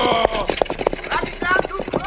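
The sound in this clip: Hooves of runaway horses clatter at a gallop in a quick, uneven drumming rhythm, with men's voices shouting and talking over them.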